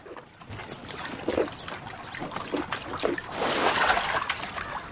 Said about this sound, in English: Himba rises and splashes forward a short distance.